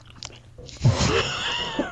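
A whole lollipop is crunched and chewed in the mouth: a brief, sharp crunch is followed by quieter, wet chewing and mouth noises at low level.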